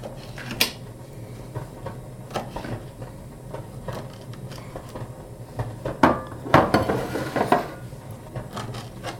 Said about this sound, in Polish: Kroję sobie w troszeczkę większą kostkę.